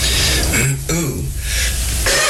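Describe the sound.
Loud, rough throat clearing, harsh raspy bursts of breathy noise that come and go over a short stretch with no words.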